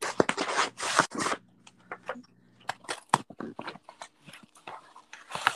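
A mailed package being opened: irregular bursts of crinkly tearing and rustling, loud and sharp, separated by short quieter gaps.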